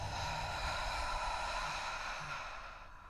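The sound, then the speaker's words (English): Slow breathing during a guided relaxation exercise, drawing air in through the nose and out through the mouth: one long, steady, airy breath that holds level and eases off slightly at the end, with no talking. “Inhale through our nose. Exhale through our mouth.”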